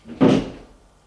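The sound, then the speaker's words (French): An apartment door slams shut once with a single heavy, low thud that fades out quickly. “Et ils sortent de l'appartement en claquant à la porte.”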